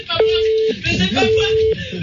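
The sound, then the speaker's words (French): A phone ringtone sounds as two steady, mid-pitched electronic tones of equal length, separated by a brief pause, with other sound murmuring underneath. “Je crois que tu peux arrêter la sonnerie”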